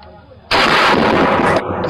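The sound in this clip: A large gun fires one booming blast. It bursts abruptly out of near quiet and roars loud and broad for about a second before cutting down, leaving only a thin remnant.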